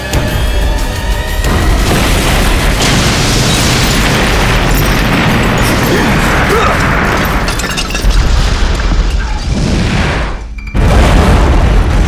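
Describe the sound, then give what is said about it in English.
A bomb explosion roars as a loud, dense, rumbling blast that holds at full force for many seconds. It cuts off briefly near the end, then bursts back in just as heavily. “when the bomb exploded”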